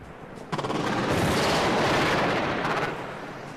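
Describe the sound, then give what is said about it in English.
Gunfire and artillery in Baghdad at the start of the 2003 invasion of Iraq: a dense, roaring barrage begins with rapid pulsing bursts, swells into a continuous loud wash of fire, then eases slightly near the end. “The invasion of Iraq was beginning. Of course, the people of Baghdad were hearing those sounds firsthand.”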